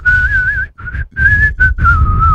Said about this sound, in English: Really good at whistling. Okay. And give it a whistle.